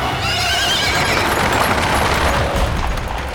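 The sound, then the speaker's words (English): A large horse-drawn carriage speeds past on a cobblestone street. Loud clattering hooves and wheels rumble throughout, joined by a horse's whinny. “when a large carriage sped by just inches from my face. I stumbled back, startled.”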